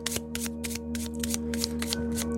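Playing cards being shuffled during a card reading, a rapid run of many crisp, papery riffling bursts over a steady low electrical hum.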